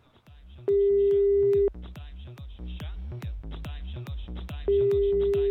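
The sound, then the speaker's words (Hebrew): Telephone line tones sound as a call is placed to an embassy. A long steady tone is heard twice, and rapid, regular pulsing runs through the whole stretch. “חייבים לחייג לשגרירות אירלנד בישראל”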